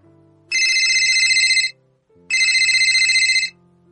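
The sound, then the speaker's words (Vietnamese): Electronic telephone ringtone signals an incoming phone call, sounding in two loud, bright bursts of about a second each, each with a fast pulsing warble and a short gap of silence between them. “Buổi tối 8 giờ, Lâm Duyệt Phi nhận được điện thoại của Thiệu Nhã Tư.”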